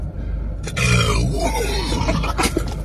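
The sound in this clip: A single low, rough burp rumbles briefly over continuous background noise, deep and gravelly, with faint voices nearby.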